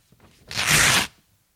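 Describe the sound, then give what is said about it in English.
A piece of paper being torn: a single rough, papery rip lasting about half a second, rising quickly to a loud hiss and then cutting off. “This is a verb we use, for example, when you have a piece of paper and you do this.”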